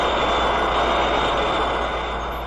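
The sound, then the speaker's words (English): A steady, jet-like roar marks a cartoon hero taking off into flight, a dense whooshing engine rush that holds level throughout and eases slightly toward the end. “But as Infra-Dan took off, he suddenly shrank and fell to the ground, landing on the surprisingly durable red arachnid.”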